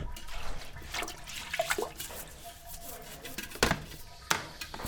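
A toilet brush scrubs a toilet bowl in irregular rubbing strokes with wet swishes, and a few sharp knocks of the brush against the bowl stand out near the end.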